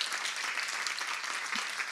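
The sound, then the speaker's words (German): Applause for a band: dense, even clapping from a crowd, sustained for the whole moment at a fairly low level, with no pauses or swells. “gebt der Band nochmal einen herzlichen Applaus”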